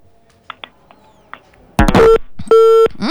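A phone call into a radio call-in show cuts off: a sharp burst of noise followed by electronic disconnect beeps, steady mid-pitched tones standing out loudly after a few faint clicks.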